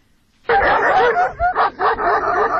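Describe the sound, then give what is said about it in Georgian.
Stray dogs in Lagodekhi, Georgia bark and yip in a loud, rapid run of overlapping calls, with high whining yelps mixed in between the sharper barks. “ლაგოდეხში ეს ხმა განუწყვეტლივ არა, თუმცა პერიოდულად დღის და ღამის განმავლობაში ისმის. აქ ასობით უპატრონო ძაღლს შეხვდებით”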